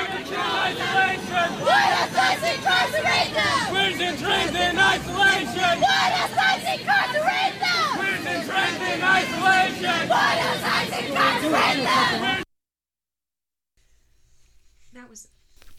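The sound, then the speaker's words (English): Protesters chant in unison at a street demonstration against ICE and Border Patrol detention, a loud and rhythmic mass of voices lasting about twelve seconds before cutting off abruptly to near silence with faint sounds. “That was the sound of protesters chanting queer and trans in isolation.”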